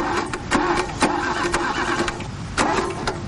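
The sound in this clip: A car engine being cranked by its starter: a churning, rhythmic series of loud bursts repeating about twice a second, with a steady mechanical whine beneath.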